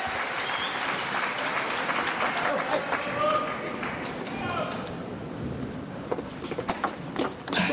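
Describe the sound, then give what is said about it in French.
Chinese spectators clapping and cheering at a table tennis match: dense, continuous applause mixed with crowd voices, thinning toward the end into scattered individual claps. “Le public chinois qui encourage Sidorenko.”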